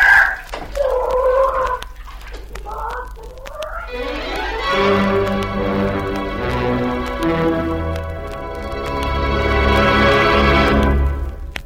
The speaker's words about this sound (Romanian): prinde cucoșul și la zvârle în fântână.